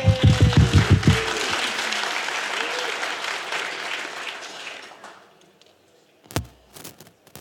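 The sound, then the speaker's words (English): Audience applause for the sound technician at a live talk, a dense burst of clapping that holds steady, then fades and gives way to a few scattered claps. A brief voice is heard at the start. “Everyone give a hand to Evan, our sound guy.”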